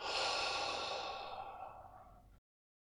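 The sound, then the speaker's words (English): One deep breath rushes out loudly and steadily, then fades over about two seconds before stopping, with no voices. “let's all just take a nice deep breath in through the nostrils and let it out, maybe through a nice wide open mouth.”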